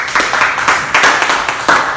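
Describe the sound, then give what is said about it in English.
Audience clapping for a student named in a classroom talk, a short steady wash of claps with a few louder swells across two seconds. “Let's clap for Grace.”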